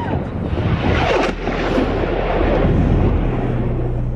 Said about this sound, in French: les sirènes d'alerte retentissent. On entend même des bruits d'explosion.